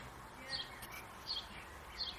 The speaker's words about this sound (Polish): Ptaki śpiewają.